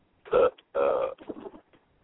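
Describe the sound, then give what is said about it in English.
A belch: two loud, throaty voiced pulses, with the second one longer, followed by a fainter gurgling, rasping tail and then quiet. “Did he just belch?”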